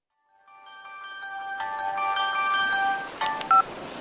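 Electronic telephone tones as a call is dialed: steady, layered beeping pitches hold for several seconds, then a few short, sharper beeps follow near the end. No voices.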